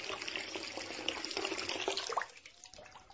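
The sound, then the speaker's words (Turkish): Running water from a tap splashes as someone washes their face after a night of heavy drinking: a steady, bright rushing hiss that thins out abruptly in the last second. “Yüzümü yıkayıp kendime geleyim.”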